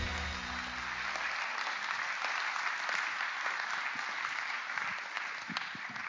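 An audience applauds at a church service to welcome a pastor to the stage. The clapping is steady and dense and stays sustained throughout.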